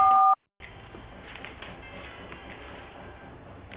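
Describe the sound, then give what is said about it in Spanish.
A voicemail beep: one short, steady, pure tone, then a moment of silence before low, continuous telephone-line hiss. “Por favor, deje su mensaje después de la señal.”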